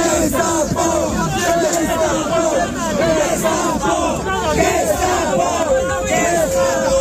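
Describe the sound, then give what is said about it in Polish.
Demonstrators at an eviction protest shout at a bailiff. A dense, continuous mass of raised, overlapping voices yells and jeers with no break. “Z ust demonstrantów można usłyszeć okrzyki pod adresem komornika.”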